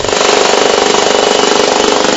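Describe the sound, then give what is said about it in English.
A large jackhammer digging out an underground room hammers loudly and continuously in a rapid, even pulse, with no other sounds. “Tell me about the work. What's involved? Basically, a rather large jackhammer.”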